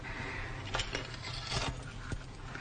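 Keys on a doll keychain jingle in a few faint, sharp metallic clinks, scattered over a quiet, steady background.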